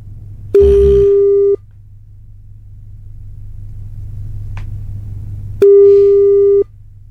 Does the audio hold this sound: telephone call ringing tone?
yes